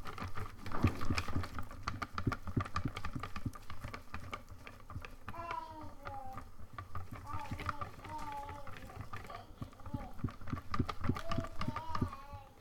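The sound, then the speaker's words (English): Batter of flour and liquid is whisked in a bowl, giving a quick, continuous run of rhythmic clicking and tapping strokes. A voice talks over the whisking for much of the time. “Nice to see that the whisking is coming through stronger than my voice.”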